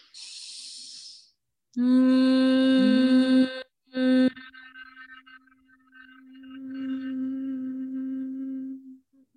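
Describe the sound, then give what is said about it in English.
Steady humming from a person in a sound-healing practice, following a breathy hiss: a low, buzzing tone with rich overtones, a brief pause and short burst, then a longer, softer sustained hum. “it's so simple and we forget. It's just humming. Can really take a deep, let's just do it right here.”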